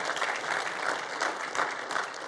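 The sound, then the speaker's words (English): Applause from a church audience clapping to honor first-time visitors during a service: many hands clapping in a dense, steady patter with gentle swells, moderately soft throughout. “If this is your first time here, and we do that around here by just clapping for you to honor you.”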